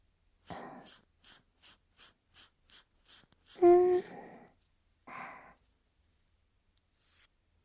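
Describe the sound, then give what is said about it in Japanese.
Breathing close to the ear in an ASMR setting: a steady series of short, soft breathy puffs, then a longer, louder voiced exhale and a few quieter breaths separated by silence. “耳呼吸するよ。くすぐったかったら言ってね。”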